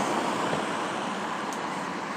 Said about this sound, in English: So I'm here at the bus stop waiting for a bus.